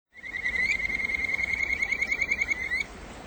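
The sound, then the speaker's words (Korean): Call of a kajika frog, a species found only in Japan: a clear, high, bird-like trilled note held for nearly three seconds, warbling rapidly before breaking into quick pulses and stopping, over a faint steady hiss. “지금 듣고 계신 소리는 여름의 전령사인 기생개구리의 울음소리입니다. 기생개구리는 일본에서만 서식하는 개구리입니다.”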